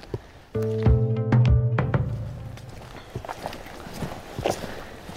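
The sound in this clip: Footsteps move through old forest on Æbelø. A few soft, uneven steps and thuds follow a louder burst of knocking near the start.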